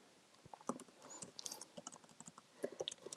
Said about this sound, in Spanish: Me estoy escribiendo aquí un mensaje a la doctora García para ver qué es lo que está pasando.